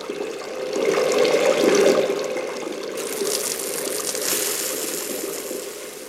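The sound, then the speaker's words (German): Water runs from a tap as hands are washed, a steady rushing and splashing that swells, eases briefly, then carries on evenly. “Bitte sofort die Hände waschen.”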